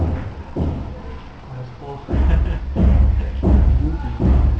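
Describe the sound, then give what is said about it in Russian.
Dull knocking thuds come from the neighbouring apartment below, several low, muffled blows repeating at uneven intervals while people talk. “там тебе стучат к соседней квартиры снизу.”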